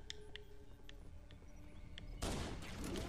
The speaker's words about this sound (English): Ooh, they're shooting at me. Those hunters are.